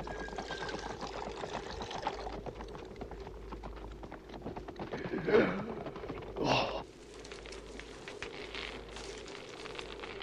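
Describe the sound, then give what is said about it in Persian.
Liquid being poured sounds as a faint, soft trickle over a low background hum, with a couple of louder splashing bursts partway through. “بگیر، بریز، باز هم بریز، چگرم می سوزد، بریز.”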